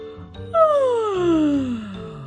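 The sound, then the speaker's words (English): A narrator's voice imitates a loud yawn as a character wakes up: one long vocal glide that starts high and slides steadily downward for about two seconds. “He gave a loud yawn,”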